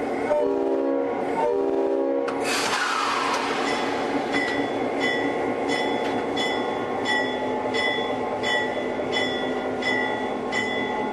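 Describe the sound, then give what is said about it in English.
A locomotive sets off on a ride along a short stretch of track. It opens with a few short horn blasts, then a sharp burst of air. After that comes a steady, regular clanking with a bright ringing tone above it. “Under Siege 2 with Steven Seagal, The Dark Territory, this was the lead locomotive in that movie. So if you're all ready, we'll go for a ride.”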